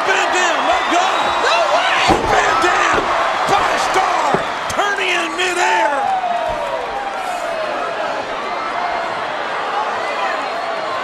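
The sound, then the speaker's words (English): A wrestler is slammed onto the ring mat at a professional wrestling event. A sharp thud stands out among a few impacts over a steady crowd roar, with voices talking throughout. “A toe slam all the way to hell for Randy Orton by Kane.”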